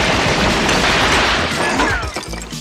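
Gunfire sound effect in a mock police raid, a dense, loud, continuous roar of shots that thins and eases over the final second.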